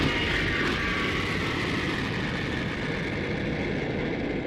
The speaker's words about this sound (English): The aircraft is on the ground and is taxiing over Victory Field's golden runway toward its position at the Port of Glory.